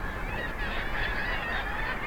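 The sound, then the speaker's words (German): Calls pour from a seabird colony of thousands of birds on cliff ledges: kittiwakes, common guillemots and Brünnich's guillemots. The squawking and honking form a dense, continuous, overlapping chorus. “Wer über die Ecke lugt, der entdeckt plötzlich Tausende von Vögeln. Die Luft ist voll von startenden und landenden Tieren.”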